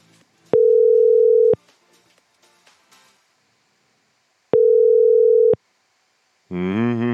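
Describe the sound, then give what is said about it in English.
Telephone ringing tones play while a call waits to be answered: two long, steady, mid-pitched tone bursts of about a second each, separated by a pause, and then a voice begins at the very end. “Oh, don't tell me Jeff's not going to pick up after all that.”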